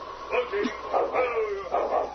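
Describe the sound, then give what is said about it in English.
Sled dog team barking: a few sharp barks and higher yips come in bursts, under people talking. “look, a dog team.”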